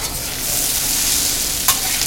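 Potatoes fry on a cafe griddle with a steady, bright sizzle and crackle throughout, and one brief louder scrape near the end.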